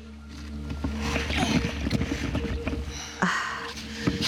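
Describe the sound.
A boat is lowered into water with a continuous splashing, rustling wash and a sharper knock and surge of water near the end.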